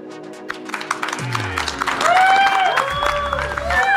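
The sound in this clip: Guests from Magellan Corporation and USO Illinois applaud during a sports radio show, with a burst of clapping and cheering mixed with a few voices.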